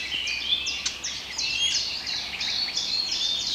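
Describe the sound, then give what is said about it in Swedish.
Smacking call notes of a blackcap foraging and moving about in a tree, set among a continuous, busy layer of high chirping birdsong. “Det som smackar där, det är svarthättans lockläten.”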